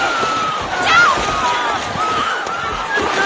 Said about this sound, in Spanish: Los náufragos chapotean histéricos, batiendo una amplia superficie y disputándose el apoyo de tablas y toneles.